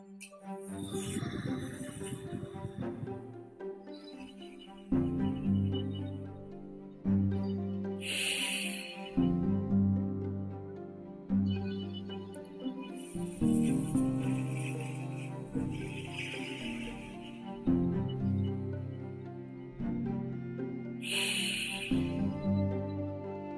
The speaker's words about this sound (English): The full chung breath looks like this.